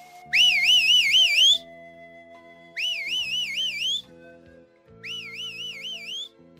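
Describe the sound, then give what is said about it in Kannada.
Soft, warbling whistling from a person walking home comes in three clear phrases separated by pauses. Each phrase wavers up and down in pitch, and the last two phrases are slightly quieter than the first. “ಮರಿಗಳನ್ನು ಮತ್ತು ಛತ್ರಿಯನ್ನು ಹಿಂತಿರುಗಿ ನೋಡುತ್ತಾ ಸಣ್ಣಗೆ ಸಿಳ್ಳೆ ಹೊಡೆಯುತ್ತಾ ಅವನು ಮನೆಯ ಕಡೆಗೆ ಹೆಜ್ಜೆ ಹಾಕಿದನು.”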